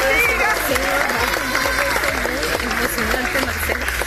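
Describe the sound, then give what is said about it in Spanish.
A crowd applauds the rescue of a young man found alive after 30 hours in San Bernardino, Caracas. Loud clapping is mixed with many overlapping voices, and the sound stays busy and steady throughout. “Los aplausos en San Bernardino, en el área metropolitana de Caracas, donde 30 horas después rescataban con vida a un joven.”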